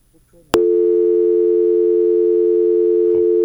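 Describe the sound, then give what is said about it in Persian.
A telephone line tone after a dropped call starts abruptly with a click and holds one loud, steady, mid-pitched hum without a break for about three seconds. Only faint noise comes before it. “تماس بود که قطع شد.”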